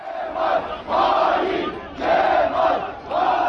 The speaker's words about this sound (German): Verräter Kemal rufen CHP-Anhängerinnen und Anhänger am Abend vor der Parteizentrale in Ankara. Immer mehr strömen dorthin.